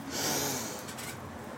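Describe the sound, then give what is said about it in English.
One deep breath drawn in through the nose during a guided relaxation pause, a breathy, airy inhale that swells quickly and then tapers off, heard on its own with no speech. “Light it up, take a breath. We're going in, so it's always good to pause for a moment, take a deep breath in.”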